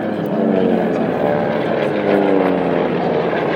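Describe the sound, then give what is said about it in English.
A big commercial passenger jet flies over an outdoor celebration in Zimbabwe, its engines giving a steady, low, droning hum with tonal harmonics. The loudness stays fairly even for the whole stretch. “passenger aeroplanes, big proper commercial jets that made a quick flyover, and the one actually landed and then took off again.”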